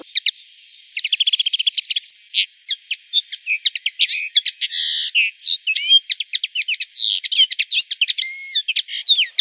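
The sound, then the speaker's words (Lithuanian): Bright, high-pitched chirps and rapid trills of a čivylis, a common farmstead bird found in gardens, forest edges and hedgerows. The song is loud and busy, with many quick notes and buzzy phrases running on without pause and no voices. “Tai buvo čivylio balsas. Iš tikrųjų, tai vienas pačių įprasčiausių sodybų paukščių.”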